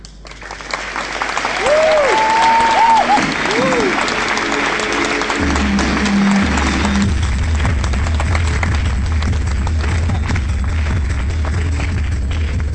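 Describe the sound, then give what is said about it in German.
Loud audience applause at a science slam as the next presenter is welcomed to the stage; the clapping swells over the first two seconds, then holds as a dense, sustained roar to the end. “Begrüßen Sie also mit einem nicht zu verräterischen Applaus Sebastian Bartoszek.”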